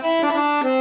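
Harmonium sounding with its low and middle reed settings combined: a full, warm, reedy drone held steadily, shifting to another held note near the end, with no talking over it.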